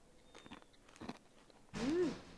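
Soft bites and chewing from someone eating soft-serve ice cream paired with green tea, faint at first, then a louder burst of mouth sounds with a brief murmur.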